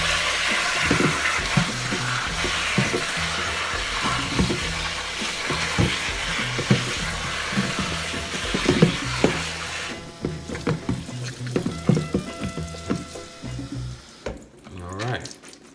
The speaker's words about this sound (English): So let's get that out of the way. Nice cold rinse.